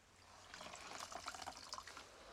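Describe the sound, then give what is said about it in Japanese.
Soft wet squishing and trickling as a sponge is worked with water to build up a fine lather, faint and continuous with small irregular squelches. “こうしてスポンジで泡を作って、”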